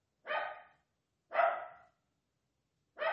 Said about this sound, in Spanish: Y nos están tratando con sus ladridos. Liberando esos gritos que todavía no nos animamos a dar.